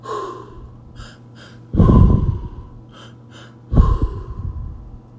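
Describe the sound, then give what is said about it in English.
Heavy rhythmic breathing during a guided breathing exercise; two forceful, loud breaths stand out, each followed by quieter, wheezy breathing that fades before the next one. “Try to let go of the concept of time as you continue to breathe.”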